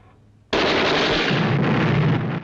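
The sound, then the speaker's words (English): Mine explosions in a film burst in suddenly with a loud blast, then roll on as a heavy, continuous rumbling roar before cutting off abruptly. “Mines explode in front of them. No! As the explosions continue, the men dive to the ground, lying face down on the sand.”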